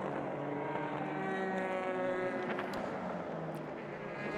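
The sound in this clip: Race car engines at Spa-Francorchamps during a World Endurance Championship race as the cars run downhill, a faint, sustained droning whine with steady engine tones and no voices.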